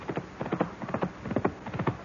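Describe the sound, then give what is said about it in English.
Horse hoofbeats in a quick, steady clip-clop rhythm, with many hollow thuds falling in repeated groups. The hoofbeats are moderately loud and sound alone, with no voices. “The hoofbeats! This time they're coming straight for the house.”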